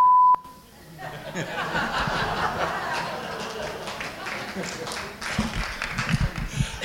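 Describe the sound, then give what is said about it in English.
A single censor beep from a documentary radio program: a loud, steady electronic tone at the very start, cut off quickly and followed by talk with soft chuckling. “I've produced over 300 documentary radio programs, and that was a single time I had to use a beep.”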